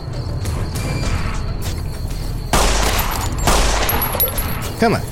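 Pistol gunfire in a video game: several loud shots in quick succession, each a harsh noisy crack, over a steady game soundscape.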